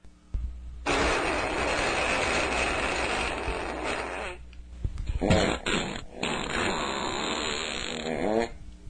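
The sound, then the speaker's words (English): Long, rasping fart sounds recorded in the mouth of a cave: a sustained buzzing blast, then a broken, sputtering stretch of shorter bursts, loud and alone with no talk. “I slipped in a recorder into the mouth of the cave and captured this fart.”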